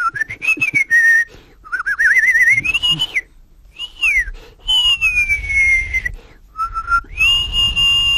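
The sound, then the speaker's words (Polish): A person whistles a melody in several phrases, with sliding, wavering notes that rise and fall and short pauses between phrases, clear and loud. “Bo ja i gwizdać umiem.”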